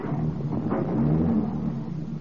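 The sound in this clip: A car engine rumbles steadily as the vehicle pulls away during a hurried getaway, a low, continuous drone that holds at an even loudness for the whole clip, with no clear speech over it.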